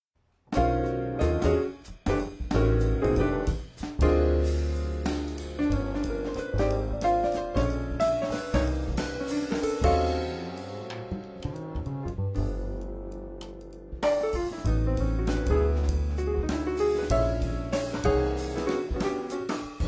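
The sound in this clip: A Swiss jazz trio playing live at a 2015 jazz festival in Glasgow, purely instrumental. Rich sustained tones mix with busy rhythmic attacks, thin out to a quieter, sparser passage near the middle, then return to full playing.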